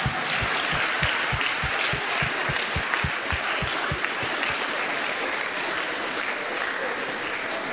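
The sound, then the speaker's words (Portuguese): A church audience claps for Jesus. Firm rhythmic clapping in unison runs through the first half, then loosens into a dense, continuous wash of applause. “Palmas pro Senhor, palmas pro Senhor. Put your hands together for Jesus.”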